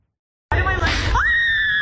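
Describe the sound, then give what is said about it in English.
A cheerleader and her coach scream on a slingshot thrill ride: a loud, high, sustained shriek bursts in suddenly from silence and holds steadily for over a second. “This cheerleader and her coach are screaming their heads off on a slingshot thrill ride.”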